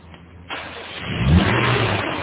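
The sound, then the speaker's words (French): A rental car's engine catches instantly, a sudden onset of engine noise that swells into a revving roar and then holds at a steady, loud level. “Celle-là démarre au quart de tour.”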